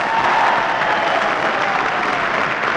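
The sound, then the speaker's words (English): Studio audience applause, a steady, even wash of clapping that holds at the same loudness for the whole short stretch, with no voices rising above it. “Save that applause, ladies and gentlemen. You'll need it to congratulate Harry Von Zell.”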